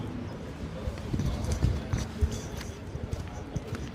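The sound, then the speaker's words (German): Footsteps of the Swiss army chief approaching on gravel: an uneven series of crunching steps with a voice speaking over them. “von weitem sehe ich schon, wie der Thomas Süssli zu laufen kommt.”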